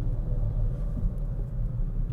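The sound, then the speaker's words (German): Low, steady engine rumble inside a car driving through a traffic jam, a quiet, even drone with no distinct events. “fahre ich weiter durch den Stau”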